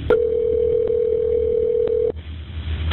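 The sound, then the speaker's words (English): A steady telephone dial tone is heard after a 911 call is hung up. It holds level for about two seconds, then cuts off abruptly and leaves a low line hiss. “The call is hung up. Dispatchers try to call back.”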